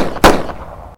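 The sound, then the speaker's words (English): A single loud gunshot fired during a robbery, a sharp blast that decays into a short echoing tail before the sound cuts off abruptly. “Holy shit, he shot the harp guy!”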